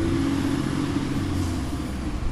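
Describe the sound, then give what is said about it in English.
Engine rumble of a San Francisco Chronicle delivery truck pulling up in front of a liquor store to drop off newspapers. A steady low drone sits under a broad, constant hiss, with no distinct separate events. “A San Francisco Chronicle truck pulls up to drop off a stack of papers in front of the liquor store.”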